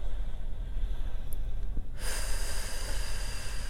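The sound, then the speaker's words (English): A slow, soft breath during a guided breathing exercise with counted inhales, holds and exhales: a faint airy hiss that swells suddenly about halfway through and stays steady to the end. “And exhaling for a count of 4. Again, inhaling. Holding.”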